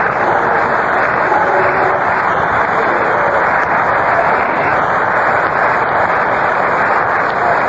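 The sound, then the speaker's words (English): Applause from the Philadelphia crowd for pitcher Roberts at a 1950 World Series baseball game, a steady, dense wash of clapping and crowd noise that continues without a break. “Roberts receives an accolade from the Philadelphia audience here.”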